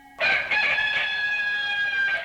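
A rooster crows once in a single long, loud, strained call that holds a steady harsh pitch for about two seconds, heard alone.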